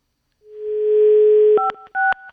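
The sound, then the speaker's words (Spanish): Telephone dialing: a steady dial tone sounds, then two short dual-pitched keypad beeps follow in quick succession. “no voy a contestar, voy a marcar. Hay que marcar al 5”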